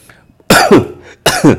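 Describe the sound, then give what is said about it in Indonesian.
Two harsh coughs from a person, each a short rough burst, separated by a brief pause, loud against near silence. “aduh sampai batuk gue”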